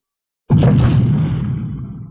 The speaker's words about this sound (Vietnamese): Trong hư không tiếng nổ mạnh vang lên